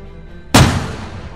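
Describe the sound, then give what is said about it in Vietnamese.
A single explosion bursts up out of the ground: a sudden, sharp, loud boom that rolls into a long, slowly fading rumble, with no voices. “rồi từ trong đất nổ ầm lên một tiếng.”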